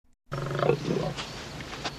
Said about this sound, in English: She sees a lion walking towards her.